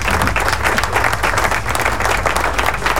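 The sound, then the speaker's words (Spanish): Crowd applause fills a rock-themed radio show: dense, continuous clapping, loud and even throughout the three seconds with no pauses. “Aplauso, please, aplauso.”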